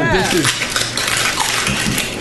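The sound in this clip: The foil wrapper of a Ferrero Rocher chocolate crinkles as it is handled, a dense, crackly, metallic rustle of irregular small snaps throughout.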